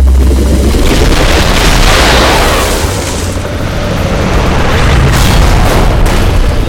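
A loud, sustained volley of gunfire and booming blasts as low-flying attack jets sweep in at about 100 feet. The roar holds steady throughout, dipping slightly midway before surging back to full strength.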